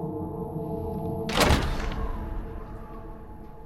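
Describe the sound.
A cellar door handle being turned and the door opening: a single short clunking burst midway through, standing out over a low steady background hum.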